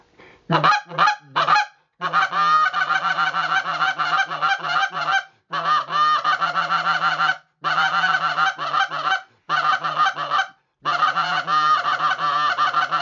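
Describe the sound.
A goose call imitating the murmur of Canada geese during an early-September honker hunt in Canada. A few sharp opening honks lead into five long runs of rapid, aggressive, loud clucking and honking, separated by short pauses.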